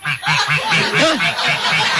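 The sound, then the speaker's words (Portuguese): Quacking from a live duck, a series of rapid, short nasal calls in a steady repeating rhythm, moderately loud and sounding close to laughter. “É um pato sem vergonha. Olha, fica com o Sebastião pra ti, tá? Me dá esse pato aí.”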